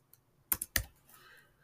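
Typing text on a computer keyboard: a few crisp plastic key clicks, one faint tap followed by a quick burst of three sharper strokes, in a quiet setting.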